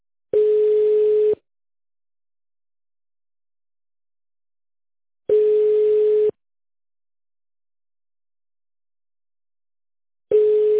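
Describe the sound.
Ringback tone of an outgoing call that goes unanswered: three steady, mid-pitched one-second beeps separated by long, even silences of about four seconds, with no voices.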